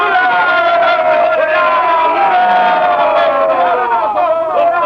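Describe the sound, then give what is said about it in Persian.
A ship's crew of men shout together in reply, many voices overlapping in a loud, rousing cheer that stays steady and continuous throughout. “خب جوابمو چی میدین مردان؟ فریاد بزنین.”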